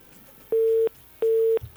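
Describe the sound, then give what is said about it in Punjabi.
A busy tone follows a telephone call that was cut off: two steady, identical beeps, each about a third of a second long, separated by a short gap. “ਪਤਾ ਨਹੀਂ ਕਿਸੇ ਵਿਚਾਰੇ ਦੀ ਕਾਲ ਬਾਰ ਬਾਰ ਕੱਟੀ ਜਾ ਰਹੀ ਆ।”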